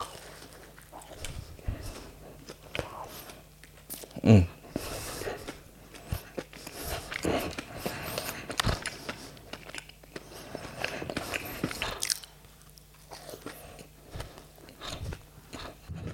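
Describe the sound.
Quiet biting and chewing of glazed donuts with a crispy topping, soft moist crunches throughout with one sharper crunch standing out early.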